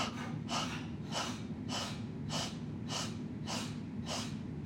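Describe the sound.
Forceful breathing-exercise exhales from a cross-legged seated practice: quick, sharp puffs of breath in a steady, even rhythm, all about equally loud, with no talk.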